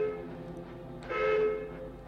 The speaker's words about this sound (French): soudain on entend au loin le bruit sourd d'une locomotive.